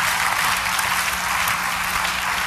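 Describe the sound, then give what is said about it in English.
Audience applause, a dense, even wash of many hands clapping at full volume throughout, with no voices over it. “Y'all better clap at least once in the meeting.”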